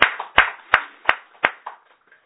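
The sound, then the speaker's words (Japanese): Clapping to celebrate a 28th birthday: a few sharp, evenly spaced handclaps at a slow pace, growing softer and sparser until the last faint ones trail away. “28歳を迎えられましたので、盛大な拍手です。”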